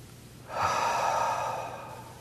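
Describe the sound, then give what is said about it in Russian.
A slow, deep breath taken during a group prayer exercise. It is a single steady, airy rush of about a second and a half that swells quickly and tapers off toward the end, with no talking. “simple prophetic act of taking three deep breaths with me”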